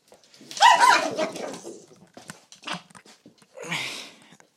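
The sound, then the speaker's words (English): Dogs fighting while eating: harsh growling and snarling bursts tear each other apart over food, coming in a few uneven spurts separated by short pauses. “Pardon my dogs as they tear each other to pieces to try to eat. I don't know if you guys heard that or not.”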